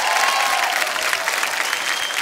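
Loud audience applause for a hit-making singer: thick, continuous crowd clapping that holds at an even level from start to finish with no talk.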